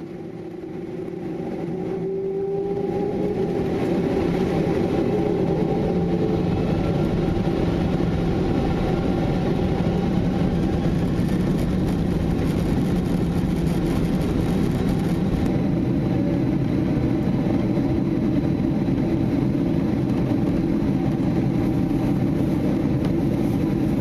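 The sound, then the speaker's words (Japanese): Steady roar of a passenger jet during takeoff, heard from inside the cabin. A low, broad engine rumble swells over the first few seconds, then holds at an even, loud level to the end, with no voices. “We be taking off shortly. Please make sure your seat belt is fastened.”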